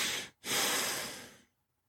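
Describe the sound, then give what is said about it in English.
Breathing for a calming technique of exhaling first and then inhaling: a short, airy breath, a brief pause, then a longer, steady breath that slowly fades into silence, with no talk. “a physical technique that works very well is to exhale first. Just blow out. Then inhale.”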